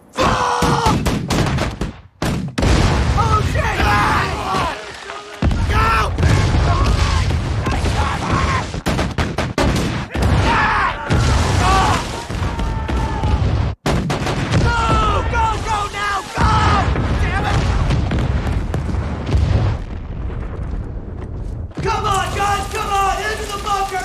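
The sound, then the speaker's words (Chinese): Artillery guns firing on enemy positions in battle, a dense, continuous barrage of booms and gunfire, loud throughout with a few brief breaks, voices mixed in. “所有火炮，一做好射击准备。 命令，向敌人阵地开炮。”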